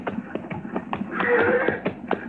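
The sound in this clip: Branded horses walking, their hooves clip-clopping in a steady, slightly uneven run of many taps at moderate volume.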